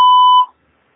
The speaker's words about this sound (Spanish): Usted puede dejar un mensaje después del tono.